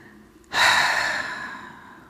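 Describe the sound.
A single long, slow breath exhaled during a guided breathing meditation: a soft, airy rush that starts suddenly, is loudest at the start and fades gradually over about a second and a half.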